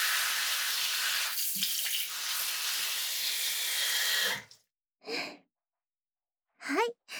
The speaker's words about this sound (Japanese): あとは後頭部のあたりを軽く流して、